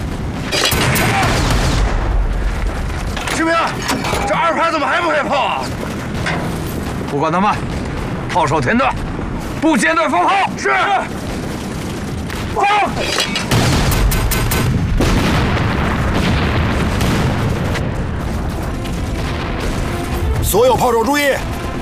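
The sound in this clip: Heavy artillery battalion barrage fired at an enemy command post: many loud booming blasts and dense crackling fire follow one another without pause, mixed with shouting voices throughout.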